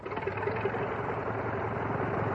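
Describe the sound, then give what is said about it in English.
A famous OX-5 aircraft engine running in a training plane gives a steady, even drone with a fine rapid pulsing texture. It is moderately quiet and holds without change, with no voices. “And it's the sound of the famous OX-5 engine.”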